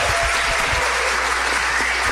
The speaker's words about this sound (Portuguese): o que iria dizer a plateia depois do aplauso natural e espontâneo que ela vai fazer?